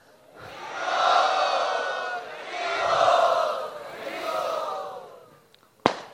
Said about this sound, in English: Now we shall have His Holiness Shri Dhanudhar Swami Maharaj. Let us very loudly welcome him.